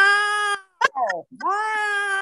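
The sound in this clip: Cats meowing and yowling: long drawn-out harmonic cries open and close the passage, with a few shorter wavering, falling cries between them, all fairly loud.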